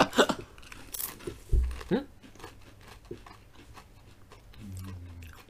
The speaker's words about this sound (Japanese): 小池屋のポテトチップス薄塩と、はい、いうことで早速ちょっと食べてみたいと思います